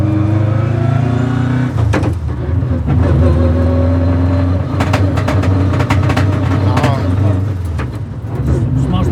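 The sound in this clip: A rally car driving a lap, a car capable of about 200 km/h built for rally stages: a loud, steady engine drone with shifting revs, broken by sharp clicks and rattles.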